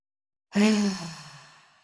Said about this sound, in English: close your eyes, deep breath in